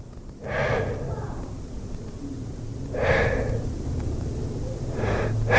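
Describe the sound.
Three audible exhaled breaths from a speaker demonstrating the word aliento, each a soft, airy rush of air. A few seconds separate each breath, over a low steady background hum.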